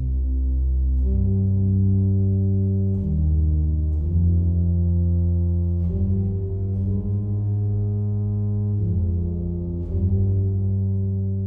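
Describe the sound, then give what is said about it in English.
Deep organ pedal notes, played with the feet, carry the slow theme of a passacaglia in C minor, each low sustained tone giving way to the next in a measured, solemn line, with no voices. “That first melody was played on the organ pedals, so this would have been played with the feet.”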